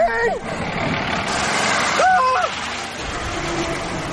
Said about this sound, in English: Hold on, the bus is coming!